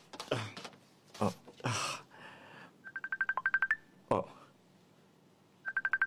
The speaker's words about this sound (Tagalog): Tawagan ko na lang siya.